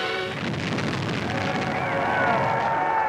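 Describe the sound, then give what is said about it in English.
A sustained, loud rumbling roar from a demolition blast set off by the Secretary of the Interior to clear old houses for a housing project. The roar continues unbroken through the whole clip. “Harold Ickes, then Secretary of the Interior, personally sets off the initial blast.”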